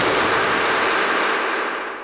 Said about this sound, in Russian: Зачем вы выстрелили? Обезьяны очень умные животные.